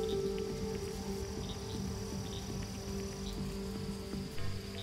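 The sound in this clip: Frogs croaking outside as rain eases off, a dense, steady chorus of high, insect-like trilling and chirping that runs unbroken at an even, moderate level with no voices.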